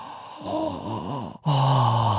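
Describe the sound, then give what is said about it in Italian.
A voice imitates deep, open-mouthed breaths, like morning breathing exercises: a few short, voiced, huffing puffs, a brief pause, then a long, loud, sustained open-mouth exhalation. “Appena si sveglia al mattino fa 10 respironi così”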